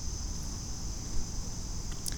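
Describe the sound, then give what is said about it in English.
Cicadas droning outdoors in a steady, continuous high-pitched buzz that barely varies, over a low rumbling background. “There's cicadas flying around doing weird stuff.”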